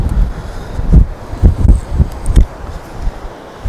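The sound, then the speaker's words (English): Wind blows at a cliff-top lookout point, buffeting the microphone as deep, rumbling gusts. Several thumping surges rise and fall unevenly, some stronger than others, over a continuous windy roar with no talking. “it's windy, but acceptably safe, I believe”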